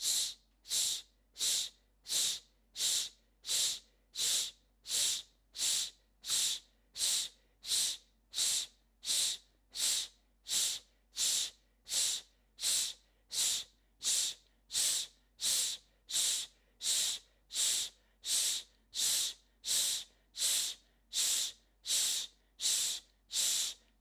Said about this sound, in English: Remember, it's that quick exhale, like shushing. Take a deep breath in. Begin.